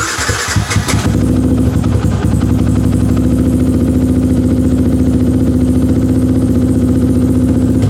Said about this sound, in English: Tenere 700, Pan America, got Todd's bucket bike, a little R15. Start it up for you, here you go.